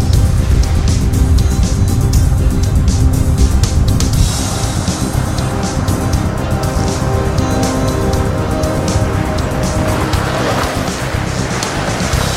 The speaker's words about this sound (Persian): در زمان حال گیسو به سرعت داره رانندگی میکنه.